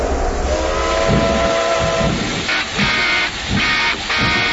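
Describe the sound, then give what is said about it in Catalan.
A train departs towards La Floresta, its loud rumbling wagons overlaid with sustained whistle-like tones that break off and return in several bursts. “Senyors passatgers, els recordem que el tren Illegal Express en direcció Ure-La Floresta surt exactament en 5, 4, 3, 2, 1...”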